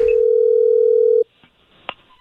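A telephone dial tone sounds while a call is being placed, a steady, loud, unbroken hum lasting about a second before cutting off abruptly, followed by a few faint clicks.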